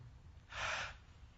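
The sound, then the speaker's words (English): A single sharp breath is drawn in, a breathy rushing inhalation that swells and fades within about half a second, heard alone over a faint low hum. “having trouble seeing God's hand in your life today? Take a breath.”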